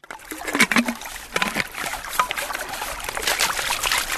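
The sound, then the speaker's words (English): Water sloshing and splashing as a sample bottle is rinsed during lake water sampling, a busy run of irregular splashes and trickles with a brief fuller pour near the start. “I'm just rinsing the bottle right now.”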